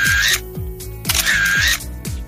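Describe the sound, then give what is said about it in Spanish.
Phone camera shutters click repeatedly as people snap photos for the BeReal app: sharp, rhythmic clicks roughly twice a second, interleaved with bright, high electronic chirps. “La aplicación que ha arrasado este verano se llama Be Real. Venga, que tenemos 2 minutos para hacernos las fotos.”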